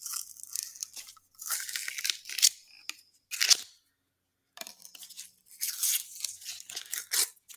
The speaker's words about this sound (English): I suggest turning some of your volume up during the unpacking of candies.